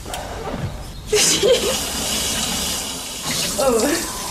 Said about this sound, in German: Hintern abwischen ohne Klopapier. Stattdessen eine warme Dusche untenrum. In Japan ist es schon ganz normal. Der Keramikhersteller Geberit will das jetzt auch nach Deutschland holen. Und es hört sich so an.